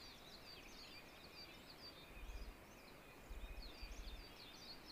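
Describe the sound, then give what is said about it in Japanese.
A leaf warbler (mushikui) sings in faint, thin, high chirps repeated across the whole stretch, with a few soft low thumps underneath. “虫食いっていうのがそっちなので、ピヨピヨピヨって。今鳴きましたね。はい、今鳴きましたね。ピヨピヨピヨ。”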